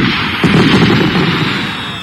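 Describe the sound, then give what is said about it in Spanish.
Festive fireworks explode loudly around a house hung with lights: a sudden heavy boom shortly after the start swells into a dense, sustained rumbling roar that fades slightly toward the end, with no voices. “¿No ve que son cohetes de fiesta? ¡Pero suenan durísimo, hijita!”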